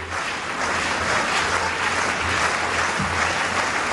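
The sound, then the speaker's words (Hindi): Crowd clapping at an athletics long jump before an athlete's run-up, a dense and steady wash of applause that stays at an even level from start to finish. “अपनी दौड़ से पहले अपने खास अंदाज में खुद में जोश भरने के लिए उन्होंने समर्थकों को इशारा किया ताली बजाने का और कूद की शुरुआत की।”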